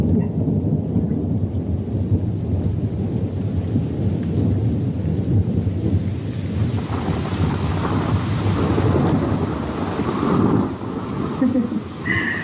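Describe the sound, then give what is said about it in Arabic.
Thunder rumbles through a heavy rainstorm, a continuous low roar that swells and eases with steady rain hiss layered across it throughout. “انت لما بتشوف لمحة البرق معناتها ما رح يصيبك شيء وبس تسمع صوت الرعد يعني معناتها ما صابتك”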